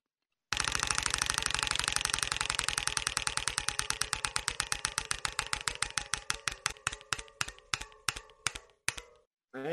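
A spun prize wheel ratchets out rapid clicks that start as a fast rattle and gradually space out, slowing to distinct ticks before the wheel stops.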